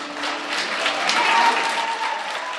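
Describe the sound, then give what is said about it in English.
Applause from an audience at a free film screening in Selma, a continuous crowd of hands clapping that swells slightly in the middle before easing a little toward the end. “Inside, the audience is enraptured. They cheer, they sigh, and when the credits roll,”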